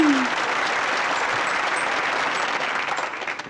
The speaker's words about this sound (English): Please put your hands together for... Brevity!